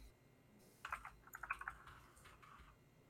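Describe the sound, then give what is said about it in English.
Soft typing on a computer keyboard, a short cluster of quick, faint keystrokes in the middle, with quiet pauses on either side. “Literally, I type in”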